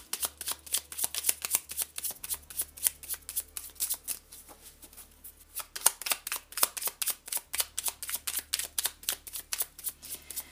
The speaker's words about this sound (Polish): no nic nie wylatuje, zaraz wyjmę jakąś taką losową kartę